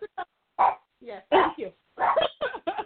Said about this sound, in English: I've never had a dog as a co-star on the podcast before.